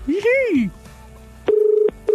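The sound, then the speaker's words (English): Telephone dialing out to call someone: two steady, clear electronic tone bursts, the second cut short, with silence before the first. “I do this and hopefully get someone to answer the phone.”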